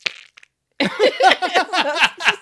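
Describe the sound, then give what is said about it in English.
A spoon stirs a jar of mayonnaise, making wet, fart-like squelches: a few faint clicks, a short pause, then a rapid run of many loud squishy bursts. “It was supposed to make a fart noise. What are you, making macaroni over there? Just got a jar of mayonnaise I'm stirring”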